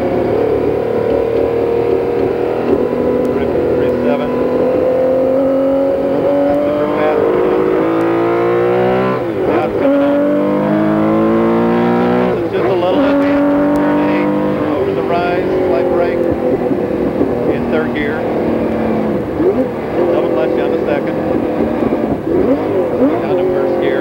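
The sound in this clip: Porsche 917K race car engine at full throttle on a racing circuit, shifting up through the gears: loud, rasping pitch climbs that repeatedly drop and rise again at each shift, with a voice talking over it.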